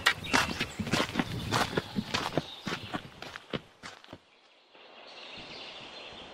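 Footsteps of four people walking through a house to a room at the back: a brisk run of many steps lasts about four seconds, then stops, followed by a low steady hiss.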